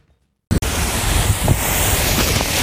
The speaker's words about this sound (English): That's the sound of hot springs flowing into ancient bubbling pools where Maori warriors once bathed after battle.